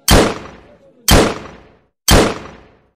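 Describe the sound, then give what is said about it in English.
Three loud gunshots fired at a man amid a crowd, each a sharp crack with a fading tail, spaced evenly about a second apart and heard alone without talk. “three bullets finding their mark in his chest.”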